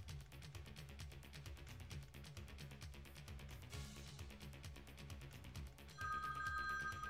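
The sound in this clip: A telephone rings faintly in a rapid, continuous bell trill, and a steadier high tone joins near the end.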